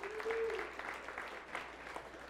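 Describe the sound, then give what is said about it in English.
Children clap during a church service, producing a faint, brisk patter of many small hands that swells early and then settles into lighter, steady clapping. “Oh, yeah, clap. That's awesome.”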